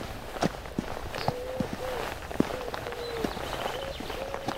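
Footsteps walk through semi-open terrain with scattered oak trees, a steady run of irregular soft crunching steps over rough ground, moderately loud and without talk.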